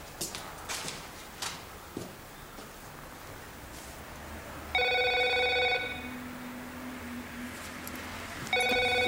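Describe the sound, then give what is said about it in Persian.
Telephone ringing in a home. An electronic ring sounds in two loud bursts, the second cut off at the end. Faint rustling and soft knocks come before it, and no one answers. “تلفن را جواب نمی‌دهد و به سمت اتاق خواب می‌رود.”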